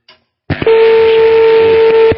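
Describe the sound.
Steady electronic tone on a phone line as the call cuts off. A burst of line noise comes first, then one continuous mid-pitched tone holds for about a second and a half over a noisy background.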